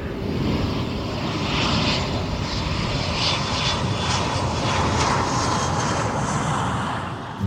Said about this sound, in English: At this time, we'd like to ask our flight attendants to please take their seats for landing.